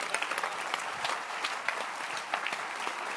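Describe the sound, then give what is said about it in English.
An audience clapping hands during a church service, a dense, steady patter of many claps running evenly throughout at moderate level. “Clap your hands.”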